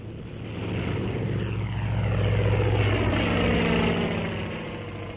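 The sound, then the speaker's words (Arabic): An airplane droning overhead: a dense, steady, low engine hum swells in over the first second, then holds level and loud throughout with a slight wavering texture. “إنها طائرة. لماذا تمر في هذا الاتجاه؟ غريب، ما من طائرة حلقت في سمائنا”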